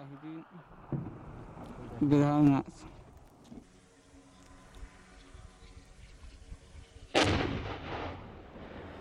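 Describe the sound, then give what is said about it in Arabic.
Mortar shells of various calibers firing at enemy fortifications along a western coastline: a few heavy booming blasts with rumbling tails, the last the loudest, over steady background noise, with brief voices. “قذائف الهاون بعيارات مختلفة لضرب تحصينات العدو تحشيدات العدو السعودي في بعض المواقع في الساحل الغربي.”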